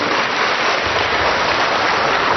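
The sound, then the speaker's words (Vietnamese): Applause from a church audience, a dense, even patter of many hands clapping at a steady loud level throughout, with no voices over it. “Vỗ tay to lên. Vỗ tay to lên có nào.”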